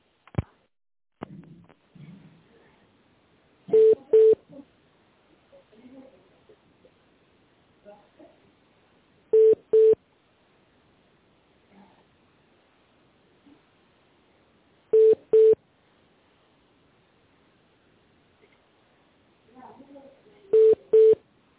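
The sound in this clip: Telephone line tones while a call is being transferred: four pairs of short, clear beeps repeat about every five and a half seconds, with faint line noise in between.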